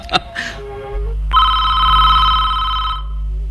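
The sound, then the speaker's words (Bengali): A telephone rings at a hotel reception desk: a loud, steady electronic ring tone that holds for close to two seconds, following a short burst of other sound. “ওই রে আবার phone”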